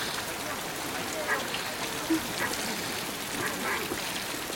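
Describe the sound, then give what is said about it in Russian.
Heavy rain pours down on a city street as a steady, dense hiss with scattered brief splashing accents. “Льет ливень.”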